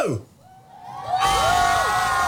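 Year 4 schoolchildren by the harbour cheer and shout outdoors: after a brief lull, a loud, sustained burst of excited shouting and high whoops erupts from the group.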